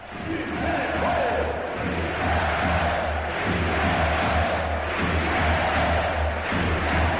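Basketball crowd chanting in the arena during a Penya game, a loud, steady, rhythmic chant that carries through the whole stretch without a break.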